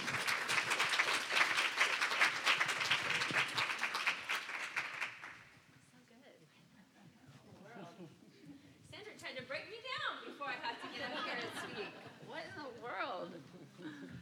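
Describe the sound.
Applause from an audience at a Christian women's retreat welcomes a speaker, loud and dense for about five seconds before fading away, after which a voice talks quietly over a low murmur.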